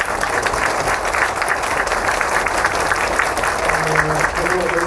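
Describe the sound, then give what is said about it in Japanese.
Audience applause at a film screening in Japan, honoring the film's director: thick, continuous clapping at a steady loud level, with a brief voice toward the end. “本当この上映のために来てくれた監督、監督にもう一回大きな拍手で”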